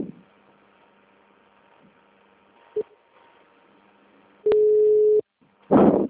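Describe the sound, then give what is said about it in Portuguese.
A telephone ringing tone sounds as the line starts calling again after a dropped call: a single steady beep of under a second over a quiet, faintly humming line, then a brief voice. “Por que que a ligação a pessoa atende e aí depois para e começa a chamar de novo?”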